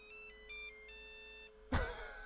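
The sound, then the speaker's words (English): A battery charger gives a long electronic beep as its battery is quickly pulled out and reinserted: a faint, steady tone that shifts in steps for over a second, then a louder burst of handling noise. “Now, if I'm very quick, I take the battery out, put it back in, it makes a long beep.”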